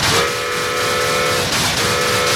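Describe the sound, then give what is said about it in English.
A toy model train with a steam whistle runs through a shaking model layout, its steady, loud whistle tone sounding over a continuous rattling rumble. “Puffing smoke, the train barrels through the quaking model.”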